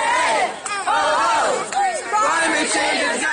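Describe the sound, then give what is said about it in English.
A crowd of young people at a climate strike chanting loudly in unison, rhythmic shouted phrases rising and falling in waves with a brief lull between chants. “these climate strikes where tons of young people would gather every Friday, maybe walk out of school to demand action against climate change. The strikes used to sound like this.”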